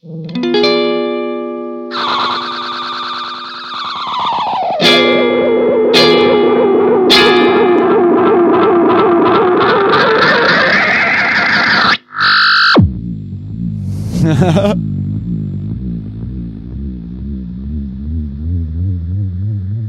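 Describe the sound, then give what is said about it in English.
Harsh, sustained electronic tones from a delay pedal in self-oscillation as the delay time and mix knobs are turned. The pitch sweeps down, then climbs, cuts off abruptly, and gives way to lower, warbling, wavering tones, with no voices. “I'm going to use the delay time and the mix knob to control the volume and the pitch of the oscillation.”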